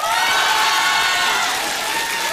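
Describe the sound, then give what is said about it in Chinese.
Loud applause and cheering fill the air from an audience at a crosstalk comedy competition, a thick sustained roar of clapping and shouts with no break. “没想到 什么呀？ 居然得到了这么热烈的掌声，”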